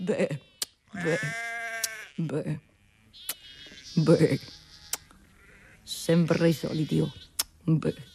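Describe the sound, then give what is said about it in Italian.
Sheep bleating: several quavering, nasal bleats come in short bursts separated by quiet gaps, with sharp clicks scattered between them. “Ma se perfino quella pecora con quei suoi occhietti e quel suo modo di belare mi sta giudicando”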